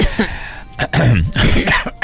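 Loud, harsh coughing, a few rough bursts with throat-clearing rasps between them, uneven in spacing.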